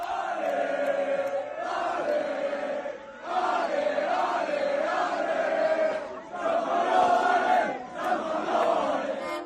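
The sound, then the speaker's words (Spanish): Crowd celebration in Burgos as San Pablo Burgos win promotion to the ACB basketball league with an 87-74 victory over Fuenlabrada: loud, sustained massed chanting and cheering with rising and falling tones, dipping briefly twice before swelling again. “Así ha sonado, como están oyéndolo ahora mismo en el partidazo, la celebración en Burgos del ascenso al ACB.”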